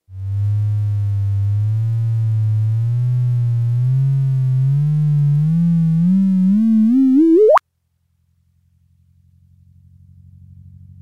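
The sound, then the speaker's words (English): A sonification of two black holes merging: a smooth, steady electronic tone climbs slowly in pitch with a gentle wobble, then sweeps sharply upward into a brief chirp and cuts off, leaving a faint low hum. “You can hear how these two black holes wobble like a top as they come together.”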